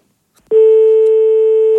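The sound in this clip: A telephone tone after the line is hung up sounds as one loud, steady pure tone lasting just over a second, alone, with a faint click before it starts.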